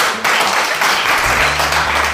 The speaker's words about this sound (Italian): Fatevi un applauso.